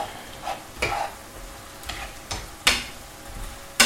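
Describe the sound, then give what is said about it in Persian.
Tomatoes being stirred into a mushroom sauce in a pan: a few sharp spoon clinks and scrapes over a soft, steady sizzle, with no voices. “خب این اوکیه، من گوجه ها رو اضافه میکنم، یه همی بهش میزنیم”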